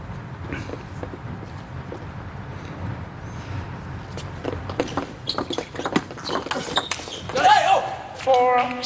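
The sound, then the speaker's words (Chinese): A table tennis ball bounces during serves in a match, a few sharp, light clicks and taps heard under continuous commentary. “很关键的两个发球”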